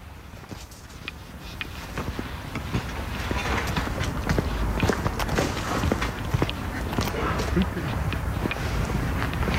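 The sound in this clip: Footsteps of someone walking through the streets of Nijmegen, heard as a steady series of many light steps over continuous background noise, with some talk.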